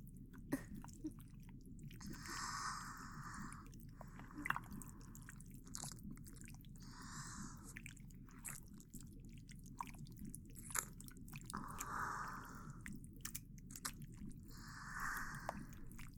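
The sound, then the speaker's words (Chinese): Soft, wet ASMR mouth sounds of gentle ear nibbling come in many short squishy bursts with quiet pauses between, close and intimate with no speech. “那么被姐姐轻轻咬着耳朵，有没有感觉更舒服了一点？”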